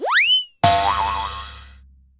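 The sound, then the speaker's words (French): A cartoon boing sounds as a lizard loses its balance, tumbles down stairs and crashes into snow: a springy twang that swoops upward, then a loud crashing impact that fades out over about two seconds. “Pénard le lézard qui ressemblait à un énorme ballon de football perdit l'équilibre et déboula dans les escaliers. Il alla s'écraser directement dans la neige.”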